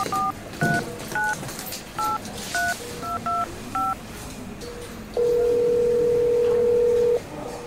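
Telephone number being dialed: eight short, clear keypad beeps of differing pitch tapped in uneven rhythm, followed by one long steady tone.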